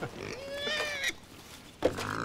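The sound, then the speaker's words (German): Wild boars in an enclosure between the Baltic coast and a forest give a drawn-out, wavering squeal, then a shorter squeal with snuffling grunts, all faint. “Und mittendrin im Gehege lebt Familie Wildschwein.”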